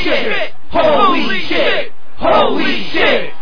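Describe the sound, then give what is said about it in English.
A wrestling crowd at a hardcore match chants and cheers. Loud, rhythmic, shouted chants come in repeated bursts separated by brief gaps. “Listen to the crowd, listen to the minority chant, jump, 360 degrees splash right onto the challenger, and the crowd explodes with chants of”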